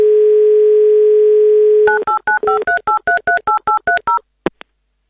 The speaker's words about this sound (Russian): Давайте звонить.